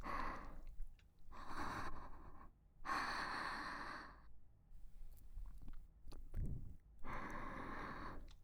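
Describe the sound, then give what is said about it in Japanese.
Heavy, agitated breathing: several loud, rasping bursts of breath in and out, separated by short pauses, with gasping and snorting sounds and no speech. “呼吸を落ち着かせてください。”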